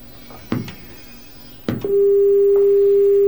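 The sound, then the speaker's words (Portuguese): A telephone tone after a dropped call: two sharp clicks, then a loud, steady single-pitch tone that holds unbroken to the end. “caiu a ligação do meu amigo Neubelaba.”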